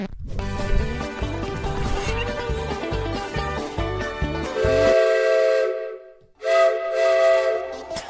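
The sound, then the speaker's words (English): Steam locomotive whistle blasts loudly as a train arrives at a station, with a rhythmic low pulsing under the first part, then sustained chord-like whistle tones broken by a short gap before a final long blast. “The locomotive has entered the station.”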